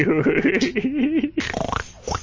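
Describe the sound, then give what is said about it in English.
A fart during a band rehearsal: a buzzy, wobbling low tone lasting about a second, followed by people talking. “Sorry, I farted.”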